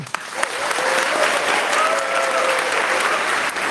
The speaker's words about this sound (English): Now, that audience you can hear just there